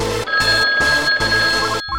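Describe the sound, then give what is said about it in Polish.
A telephone rings while a call is placed to a salon: a steady, bright electronic ringing tone broken by four brief gaps, loud over a low background. “I w tym celu zadzwoniłem do salonu Freckle.”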